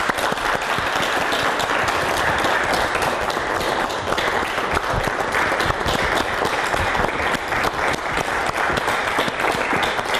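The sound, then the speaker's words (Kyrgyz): A studio audience applauds to welcome a parent guest onto a talk show stage: dense, even clapping that stays loud and steady for about ten seconds, with no voices rising above it. “анда кол чабалар менен тосуп алсак.”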